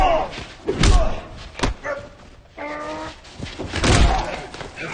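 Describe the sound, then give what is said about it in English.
Heavy thuds of a body slammed face first against a wall during a violent fight, a few dull impacts rising sharply out of quieter rustling and scuffling. “Ray slams Lester face first to the wall.”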